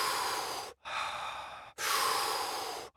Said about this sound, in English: And then I create a cycle. So rather than it be a big pickup and a drop off, it's like a cycle of breath.